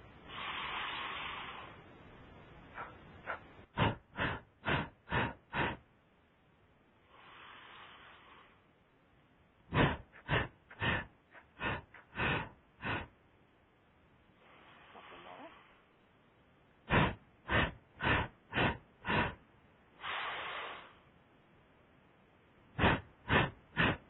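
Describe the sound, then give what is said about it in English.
Forceful nasal breathing in a fire-breath exercise, with sharp hissing bursts in quick rhythmic sets of about five, alternating with longer, softer breathy stretches throughout. “Let's do 20 together and take your time. So in breath through your nose.”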